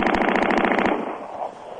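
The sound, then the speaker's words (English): A machine gun firing rapidly: a tight, evenly spaced burst of loud shots lasting under a second, then cutting off into a fading, rumbling tail. “A machine gun?”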